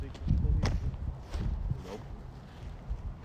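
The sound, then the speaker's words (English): Footsteps walking on grass beside a sidewalk. Many soft, muffled steps make a low rustling crunch at a fairly quiet, even level. “How, like, the sidewalk's over here, but, like, you're walking in, like, the grass.”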